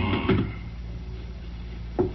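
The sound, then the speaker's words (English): A door in a tannery workshop swings shut with two dull wooden thumps, one near the start and another about two seconds later, over a low steady hum. “Well, it's cold outside. I'll just close this door.”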